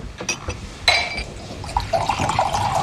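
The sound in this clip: Sparkling water being poured into a glass for a guest: fizzy, splashy liquid noise that holds fairly steady and loud throughout, with a brighter burst near the start.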